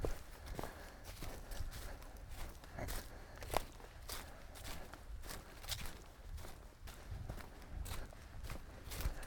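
Footsteps walking along a leaf-covered woodland trail, a little muddy after rain: faint, steady crunching and rustling steps in an even walking rhythm, with no talk.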